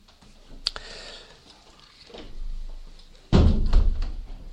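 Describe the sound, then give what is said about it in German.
A window at the front of a church during a service is shut. A sharp click comes first, then a louder thump and rattle about three seconds later, followed by a short rumbling tail. “Wir können hier vorne das Fenster auch wieder schließen.”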